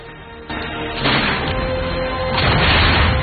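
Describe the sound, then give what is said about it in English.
Gunfire at a lake shore as people wade through shallows toward canoes: a few heavy, booming shots that each jump the level up, leaving a rough, noisy rumble in between. “They wade through the shallows towards the canoes, coming under fire from a Huron.”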